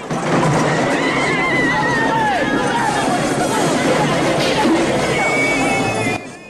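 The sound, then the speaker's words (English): Horses in a chase by knights through a castle market: a dense, loud, constant clatter and rumble with a few shrill whinny-like cries, over heavy crowd babble for nearly the whole clip. “Knights on horseback pursue them.”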